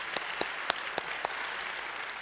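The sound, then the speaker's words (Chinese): Church audience applauding for Jesus: a faint, even wash of clapping with five sharper, evenly spaced claps standing out over the first half. “我俾掌声耶稣好嘛？”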